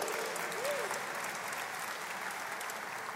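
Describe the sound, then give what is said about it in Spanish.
Audience applause for a pianist: an even wash of many hands clapping at a moderate level, continuous throughout without a break. “Le damos un aplauso ahí del piano”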